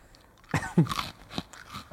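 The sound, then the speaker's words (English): Crunching and chewing of crunchy spicy snacks, a few sharp bites and crackly chews in quick succession, close and fairly loud against a quiet background. “Got that crunch.”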